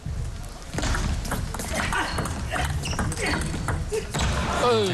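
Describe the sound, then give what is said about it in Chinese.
Table tennis ball struck as Tomokazu Harimoto serves in the fourth game of a match, heard as a few short, sharp clicks under steady commentary and background crowd noise. “我们接下来看双方第四局的较量。张本智和先发球，”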